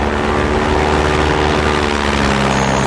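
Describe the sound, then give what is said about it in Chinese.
Loud, steady engine drone of an airplane flying overhead. It stays continuous and even through the whole clip, with no other sounds. “是飞机”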